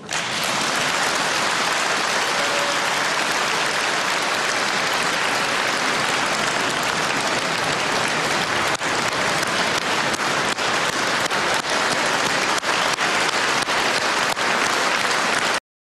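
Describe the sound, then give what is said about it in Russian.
An audience applauding in a hall, with thick, continuous clapping that stays loud and steady throughout. A few sharper individual claps stand out toward the end. “Я специально такое долгое послесловие показала, потому что мне кажется, зал, конечно, мог бы аплодировать вечно, если бы рулевой благосклонно и скромно не осадил всех,”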